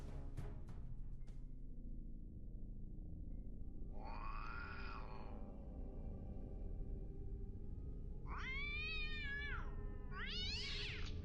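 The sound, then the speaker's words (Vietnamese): A stray cat meows at night: several drawn-out, wavering meows, the last ones higher and more strained. They sound over a steady low background hiss, with a few sharp ticks near the start. “Tiếng mèo vườn chuồn đâu đó vang lên.”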